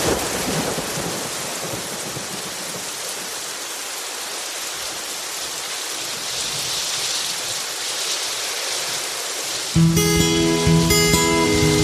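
Heavy rain pours in a dense, steady hiss while thunder rolls low underneath. Near the end, music abruptly takes over.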